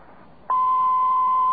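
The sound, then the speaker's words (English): A single steady electronic beep from an automated collect-call phone system, signalling the caller to state a name. It sounds abruptly after a short hush and holds at one unchanging pitch to the end. “At the tone, please state your name.”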